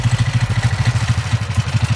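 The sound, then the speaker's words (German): The small engine of a souped-up ride-on lawn mower tractor, faster than usual and used for racing, chugs loudly with a steady, rapid, low throb. Its even pulses repeat without any clear change in speed. “Das hier, das ist der Motor der flotten Rosi. Die flotte Rosi ist ein Rasentrecker. Total lustiges Gefährt. Es ist quasi ein Mini-Trecker, kann man sagen. Also eigentlich ein Aufsitzrasenmäher, nur halt ein bisschen schneller.”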